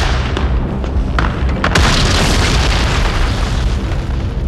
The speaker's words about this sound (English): First, we take you to the battery of the 22nd Field Artillery, located in the Wachung Mountains. Range, 32 meters. 32 meters. Projection, 39 degrees. 39 degrees. Fire!